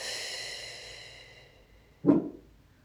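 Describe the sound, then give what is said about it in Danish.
A deep breath is drawn in through the nose and let out through the mouth: a soft, fading breathy hiss, then a brief, sharper puff of exhaled air. Quiet throughout, with no talk. “Og tag en dyb indånding ind igennem næsen. Og giv slip ud igennem munden.”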